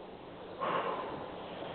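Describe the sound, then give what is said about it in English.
A deep breath is drawn in: one soft, breathy intake of air that begins suddenly and then tapers off, faint and alone. “Breath that you just took, that's the breath that heals.”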